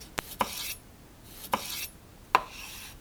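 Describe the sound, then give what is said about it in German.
Knife chopping large, very ripe tomatoes: four sharp, irregularly spaced cutting taps, several followed by a soft rasping scrape, fairly faint and without talking. “Also, man nimmt 4 große Tomaten. Sie müssen sehr reif sein. Das ist wichtig. Man schneidet die Tomaten klein”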